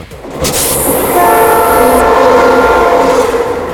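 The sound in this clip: Sound effect of a train horn: a loud, sustained, multi-tone horn blast over the steady rumble of rail cars, continuing to the end.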